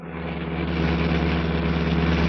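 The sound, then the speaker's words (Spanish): Deep engine rumble of a huge, powerful armored limousine with dark-tinted windows approaching along a street at night, a steady low hum that swells slightly in loudness. “Una enorme y potente limusina que está provista de cristales oscuros se aproxima por una calle cercana al parque Nacht de Offenburgo.”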